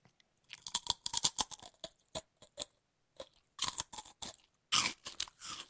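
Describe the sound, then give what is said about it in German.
Crunching of a potato chip: many crisp, dry crunches in quick bursts, separated by short pauses, fairly loud and with no talk. “Ein Chip. Okay. Ein Chip. Das ist ein Chip gewesen.”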